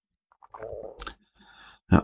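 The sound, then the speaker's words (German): Taking a small sip of a drink, with a few quiet slurping and mouth noises, a brief louder gulp, and a sharper sound at the end. “Kann ich, ich trinke mal ein Schlückchen.”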